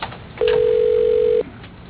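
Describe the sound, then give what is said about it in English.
A steady telephone tone plays during a call hold and transfer: one even, mid-pitched beep lasting about a second, clean and unbroken, against a quiet background line. “Please hold while I transfer you to Ken Butler Jr.”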